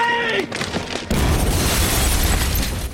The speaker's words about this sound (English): They run for cover as the parachute bomb hits nearby.